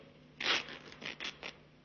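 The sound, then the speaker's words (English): Fabric tearing as a raincoat lining is ripped open in a cellar: one long, harsh rip followed by a few shorter, quieter tearing bursts, crisp and hissing, with no voices. “Yeah, try ripping the lining, Sergeant.”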